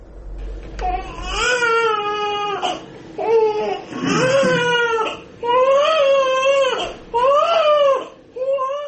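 An infant cries in a series of loud, wavering wails, each rising and falling in pitch, broken by short gasps between bursts.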